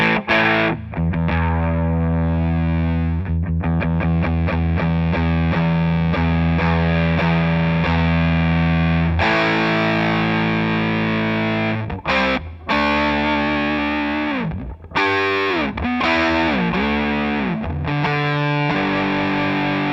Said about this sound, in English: I'll use that for the basic overdriven sound, and I'll blend in fuzz.